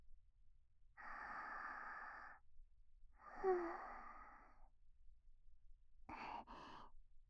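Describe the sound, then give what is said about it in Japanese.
A person takes a deep breath: two long, breathy, sighing draws of air, a pause, then two short quick breaths. It is quiet and there is no talking. “あ、深呼吸してみるね。”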